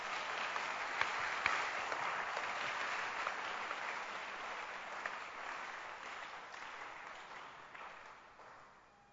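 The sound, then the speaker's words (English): A church audience claps during a service, producing a soft, even patter that holds steady and then gradually fades away over the last couple of seconds. “You can clap if you want to clap. You are allowed to clap.”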